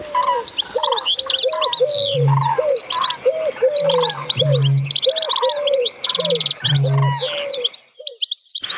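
A dense chorus of bird song, including a Eurasian bittern, with bright repeated chirps and whistles over a steady stream of mid-pitched calls. A few low, hollow booming notes sound beneath them.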